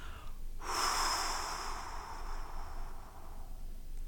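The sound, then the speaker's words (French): A forceful, noisy exhale through the mouth during a 4-7-8 abdominal breathing exercise: a long breathy whoosh that starts abruptly, carries a faint whistling edge, and fades slowly over a few seconds. “vous allez tranquillement inspirer l'air avec le nez et vous expirerez avec plus de force en faisant du bruit.”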